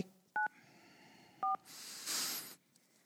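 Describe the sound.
Two telephone keypad dialing tones, each a short, clear two-pitch beep about a second apart, are followed by a longer rushing burst of noise.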